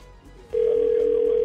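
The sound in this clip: A telephone ringing tone plays on an outgoing call. After about half a second of low background noise, a steady, loud, mid-pitched tone begins and holds with a faint pulsing texture until the end.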